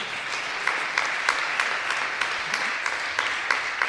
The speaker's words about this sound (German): Ja, darf man auch klatschen, aber muss man nicht.